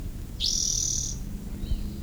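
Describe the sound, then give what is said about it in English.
A single bird sings one clear, sustained high whistled note lasting nearly a second, followed by a fainter brief call, over a quiet low rumble of background noise; no talking. “What was bird number two, I think, is still singing.”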